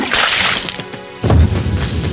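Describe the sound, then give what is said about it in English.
A bucket of bath water splashed onto a television: a loud, broad rushing slosh that fades, then a second heavy, thudding splash partway through, with no voices. “So you dumped a bucket of water on the television against your will.”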